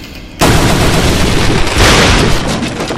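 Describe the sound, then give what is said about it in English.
A door being smashed in a video game, struck repeatedly with the space bar: a sudden loud crashing burst followed by sustained noisy crunching, with a second surge of impact partway through. “The door sound you're hearing off to the right, that's a door. You want to be right here. And hit the space bar to destroy it. And you have to hit them a few times.”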